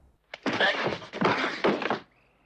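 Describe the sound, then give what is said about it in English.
A kick to the ribs lands during a fight inside a bombed-out hut in a film, heard as a short series of dull, muffled thuds and scuffling, fairly quiet overall. “He lurches at Braddock, who kicks him in the ribs.”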